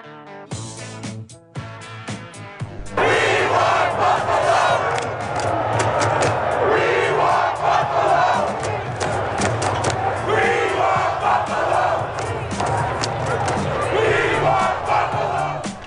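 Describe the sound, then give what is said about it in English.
A football crowd at Empower Field at Mile High in Denver roars after a brief burst of music, then sustains a loud, continuous cheer with shouting that swells and dips but never drops away. “The sound from, I don't think it's Invesco Field anymore. What is it? It's something at Mile High. Is it Empower Field?”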